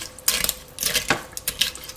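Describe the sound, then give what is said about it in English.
Pasta stirred in a pot of water: several bursts of sloshing and scraping from the spoon against the pot, with quieter pauses between them and no talking. “Let's fill that up with water and see how that goes. So I'm gonna mix it around, and if my pasta is not covered,”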